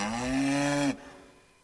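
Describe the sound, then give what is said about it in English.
A cow moos once: a loud, steady, low harmonic bellow lasting just under a second that cuts off abruptly, leaving only faint background noise. “Okay, come on, cow. Let's go home.”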